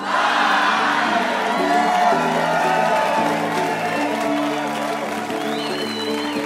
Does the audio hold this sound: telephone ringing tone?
no